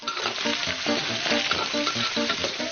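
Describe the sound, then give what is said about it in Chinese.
Sliced smoked cured pork stir-frying with red chili, a loud, continuous hot-oil sizzle broken by a rhythmic pattern of stirring and tossing in the pan, with no voices. “烟熏腊肉切片煸香，加入红辣椒，”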